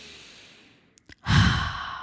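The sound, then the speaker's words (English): A deep breath: a soft, drawn-in breath and a couple of small mouth clicks, then a loud, long exhale like a sigh that fades out slowly. “Take a deep breath. Seriously, just do it now with me.”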